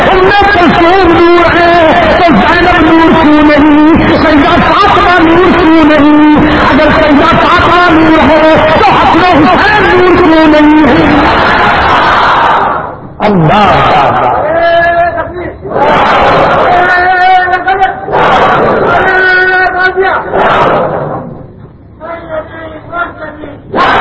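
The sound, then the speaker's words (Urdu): A crowd chants slogans during a religious speech, loud and sustained at first, with layered voices holding pitched, repeating lines, then breaking into a few shorter, separate bursts of group shouting toward the end. “نعرہ لگا لگا کر تھک تو نہیں ہو اگر ایسا دوسرا نعرہ لگانا تو بے شک نہ لگا”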